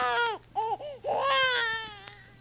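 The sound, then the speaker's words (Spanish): A baby girl crying: a few wailing cries with wavering, bending pitch, then a longer strained cry that trails off into softer whimpers. “Ya, ya, ¿qué llanto es ese? Ven con mamita.”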